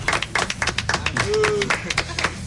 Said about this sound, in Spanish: Un aplauso muy grande para ellos.